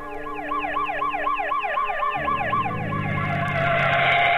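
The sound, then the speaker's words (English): Police cruiser siren wailing in rapid, repeated up-and-down sweeps, loud and continuous, then settling into a steadier tone as a low engine rumble joins underneath. “But a police cruiser, attracted by the noise, pulls up.”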